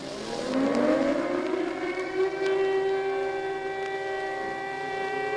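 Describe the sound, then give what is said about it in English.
Air raid siren in Prague in February 1945, a loud harmonic-rich wail that climbs in pitch over the first second and a half, then holds a steady sustained note to the end. “we hear the familiar sound of an air raid siren, captured here in a Czech broadcast from the time.”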